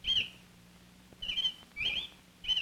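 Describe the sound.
A male robin sings near the nest where the female is sitting: four short, high chirping phrases, fairly faint, separated by brief pauses over a low steady hum.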